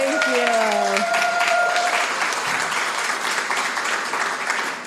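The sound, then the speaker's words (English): Audience applause welcoming a guest, a thick, steady wash of clapping that eases slightly toward the end, with a voice briefly heard over it at the start. “Give her a hand.”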